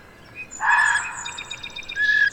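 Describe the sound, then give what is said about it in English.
A red fox calls near a pond, probably a female seeking a mate: a harsh, shrill scream, then a rapid string of high pulsed notes and another piercing cry, over a steady outdoor hiss. “That is the call of a red fox, probably a female, looking for a mate.”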